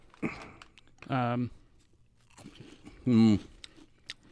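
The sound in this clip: Someone crunches and chews Pan Pan crunchy spicy chicken wheat snacks, with faint brittle crunches and clicks. Short voiced sounds come in between the bites.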